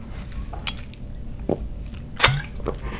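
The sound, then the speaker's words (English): Wet swallowing and slurping as a person drinks water, a few soft gulps and mouth sounds spread across steady low background noise, with no talk. “Give me a second, I need some water, I am parched.”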